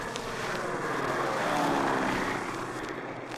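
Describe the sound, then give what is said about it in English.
An aircraft approaches the airport for an emergency landing with only one landing wheel down, giving a steady, broad engine roar that swells slightly toward the middle and then eases, with no voices. “The plane is coming in for an emergency landing with one wheel down. Approaching the airport now.”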